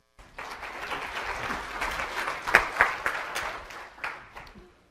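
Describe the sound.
Applause at a PAINWeek pain-management conference session welcomes a speaker. An audience claps steadily for about four seconds, with a few sharper claps standing out, before it fades out.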